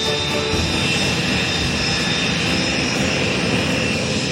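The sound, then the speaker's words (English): Steady, loud jet roar as twenty-two Hawker Hunter jets fly in close formation through a loop, a dense unbroken rush of engine noise that holds even throughout, with no voices. “He recalls the moment when 22 Hawker hunters stood vertically on their tails.”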